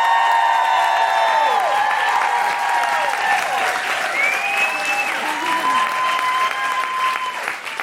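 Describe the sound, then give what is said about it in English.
Audience applause and cheering as a performer is welcomed to the stage at an International Women's Day show: dense, continuous clapping with high whoops and shouts on top, easing slightly near the end. “Please put your hands together and make incredible woo-hooing noises”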